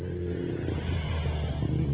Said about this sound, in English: I got cars driving by with the booming system.